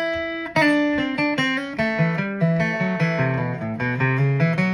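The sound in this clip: A fast, clean lick on an acoustic guitar: many quick plucked notes run in a steady stream, bright and ringing, with no voices.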